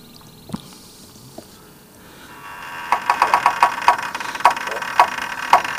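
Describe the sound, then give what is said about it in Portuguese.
Sound effect of a heavy, wet wooden farm gate swinging open. A couple of isolated knocks come first, then a run of loud, rhythmic creaking clacks as the gate moves, over a low rumbling background. “Anderson, vamos escancarar a porteira? Cuidado com a porteira que está molhada hoje. Está molhada.”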